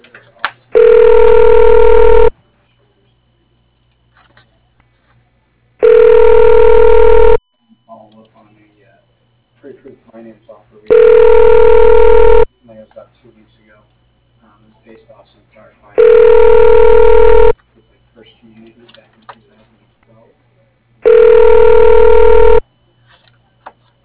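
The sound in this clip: A telephone ringback plays while a caller is transferred on a property management company's phone line. Five evenly spaced ring bursts, each about a second and a half long, are separated by quiet pauses.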